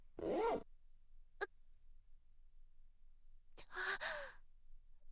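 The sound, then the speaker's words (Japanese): Trouser zipper pulled down: short rasping zip bursts, one early, a brief tick, then a longer scratchy pull near the end, with no talk. “チャック下ろしちゃっていいですか”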